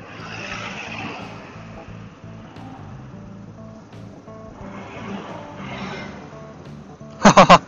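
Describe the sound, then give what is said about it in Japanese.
An engine revving with the throttle twisted to its limit, a steady low droning roar that stays fairly even in level and ends with three sharp clicks. “もう少しだけアクセルひねれねえかなと思ってたら、今限界に踏んじまった状態だ状態だったわ。”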